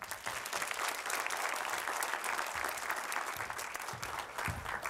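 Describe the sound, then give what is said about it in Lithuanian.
Audience applause greets a company's general director arriving as a guest on a talk show: dense, steady clapping that stays loud and even throughout, with no voices over it. “Pasitikime plojimais.”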